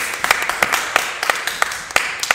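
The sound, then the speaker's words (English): Sparse clapping from a few people, with many sharp, separate claps falling in an uneven rhythm over a faint background hum and no talk. “Clap.”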